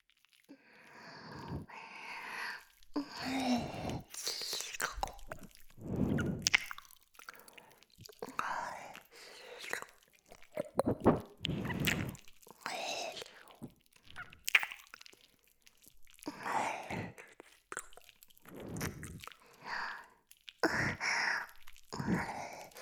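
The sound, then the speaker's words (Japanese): Wet ear licking and tasting sounds in a Japanese ASMR recording: many soft, moist smacks and slurps with breathy whispering, quiet and intimate throughout. “反対側の耳も味見させてね。”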